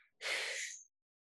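A single short, breathy exhale during a neck-stretching breathing exercise for stiff shoulders, soft and airy, lasting under a second and heard alone.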